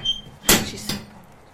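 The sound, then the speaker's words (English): A horse opens a stable gate with two sharp clattering knocks close together, the second fainter, over a quiet low background. “And if the gate is closed, she's opening it.”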